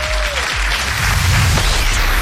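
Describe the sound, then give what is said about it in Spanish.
Audience applause at an awards ceremony for books about music, a short, steady patter of clapping that grows a little fuller in the second half. “Eso, aplauso.”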